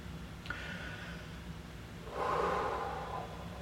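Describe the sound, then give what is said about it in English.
A single deep breath, a soft airy rush of air in the second half over a low, steady background hiss, faint throughout. “Deep breath.”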